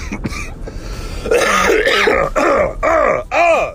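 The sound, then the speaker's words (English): A person's rough, hacking cough and throat clearing: several loud, harsh voiced bursts with arching pitch follow one another in quick succession, with no speech. “I don't know why this cough. I don't know what's causing this cough because it's not like persistent.”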